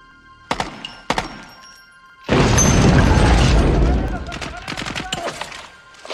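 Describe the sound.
A rifle shot is fired at a lone shooter in a tower. Two sharp mechanical clicks come first, then a loud blast rolls out for over a second, followed by a scatter of smaller clicks and knocks.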